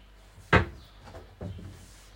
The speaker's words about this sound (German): So, die Tassen ist eigentlich soweit sauber. Dann räume ich sie mal in den Schrank.